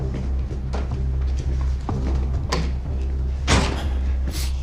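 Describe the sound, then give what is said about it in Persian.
A door being closed and locked: a few soft knocks over a low steady hum, then two sharper, louder clunks near the end. “میشه این در رو قفل کنی؟”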